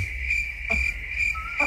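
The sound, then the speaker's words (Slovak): Crickets chirp in a steady, high-pitched trill that stays faint and continuous throughout, with a few brief added pulses. “Hej, kde mám cvrčky?”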